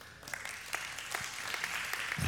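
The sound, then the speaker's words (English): A church audience applauds during a Sunday service, with faint, even clapping that continues for a couple of seconds. “So you now can give big claps for all of that.”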